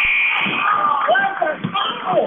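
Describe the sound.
Game-end buzzer at a basketball game, a sustained harsh electronic tone under continuous excited commentary.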